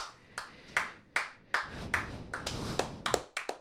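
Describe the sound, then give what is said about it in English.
Sparse clapping comes from a few people in a studio, sharp individual claps landing at uneven intervals, some single and some bunched close together, fairly faint overall. “Wow, can we get a round of applause in the studio here?”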